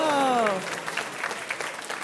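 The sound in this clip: Game show audience applause: a voice ends at the start, then light, scattered clapping follows at a moderate level.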